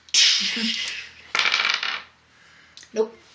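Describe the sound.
Dice rolled across a hard surface during a game, producing a few bright, clattering rattles in quick succession.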